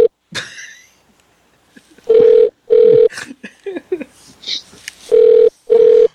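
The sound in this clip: Ringback tone on an outgoing telephone call: two pairs of short, loud, steady buzzing tones, with scattered quieter noises in the pauses between them.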